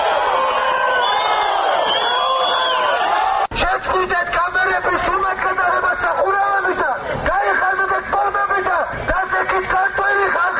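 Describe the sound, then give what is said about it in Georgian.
A protest crowd cheers and shouts on hearing of the interior minister's resignation, a dense, continuous roar of many voices with whoops and calls, loud throughout. “აქვე მათ შინაგან საქმეთა მინისტრის გადადგომის შესახებ შეიტყვეს, რასაც შეძახილები მოჰყვა.”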